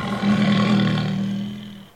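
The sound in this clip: A tiger roars once, a loud, deep, rumbling call lasting about two seconds that holds steady and then fades out.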